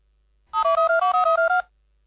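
A telephone rings during a radio call, giving one short burst of rapidly warbling two-tone electronic ringing that lasts about a second and stands alone against silence.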